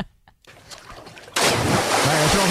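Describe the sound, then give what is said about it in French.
A person dives into a swimming pool: near silence breaks into a sudden loud splash, followed by a sustained rushing, churning water noise until the end. “Ouais, je pense que ça, c'est un plongeon de piscine. Bon, victoire de gars. On a les bonnes réponses au 6-12-13, tout va bien.”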